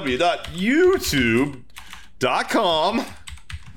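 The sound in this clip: Quick clicks of someone typing a web address on a computer keyboard, partly under people talking and clearer in the short pauses between their words.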